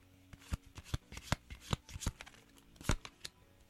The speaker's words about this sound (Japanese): カードを切る音がね出ておりますけどね